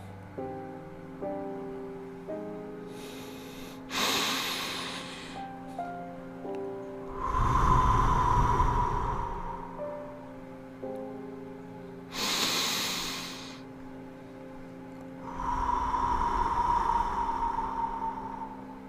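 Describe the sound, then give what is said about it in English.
Deep breathing in and out, two slow full cycles of airy, hissing inhales followed by longer, softer exhales, set over quiet sustained musical tones with no talking. “Breathe it all in. And breathe it all out.”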